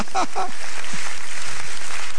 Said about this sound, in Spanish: Dele un aplauso al Dios de la gloria.